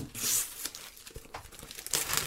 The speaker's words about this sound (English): All right, let's find a spot and start tearing. Open it up.